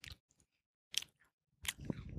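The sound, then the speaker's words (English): A cracker is crunched and chewed in a few separate, crisp bursts, with quiet gaps between the bites. “Will we get more views if I'm eating a cracker?”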